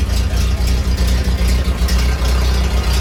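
An old Ford car, a garage find, idles with a loud, low, steady rumble and regular chugging pulses.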